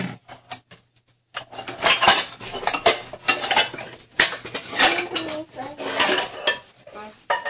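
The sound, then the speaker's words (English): Dishes and cutlery being washed in a sink, with a dense, continuous clatter of clinks, knocks and scrapes after a brief, sparse start, staying fairly loud throughout. “I see a sink full of dishes. First of all, put all of those away, and then you start washing these dishes.”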